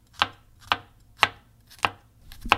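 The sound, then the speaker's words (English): A knife chops garlic on a cutting board in five sharp, crisp strikes spaced about half a second apart, with no talk. “All right, so the garlic is being crushed / sliced.”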